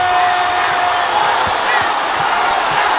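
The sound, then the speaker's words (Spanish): Crowd cheering and applause, a loud continuous roar of mixed voices and clapping with a few dull thumps scattered through it. “aplauso para gente.”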